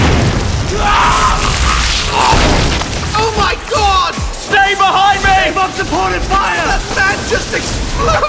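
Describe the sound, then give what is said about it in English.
An explosion booms in an audio drama battle, a loud, low rumble filling the opening seconds, then shouting voices over continuing battle noise. “The man just exploded!”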